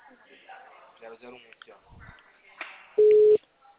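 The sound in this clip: After a stretch of talking, a telephone call signal cuts in as one short, loud, mid-pitched electronic beep lasting under half a second.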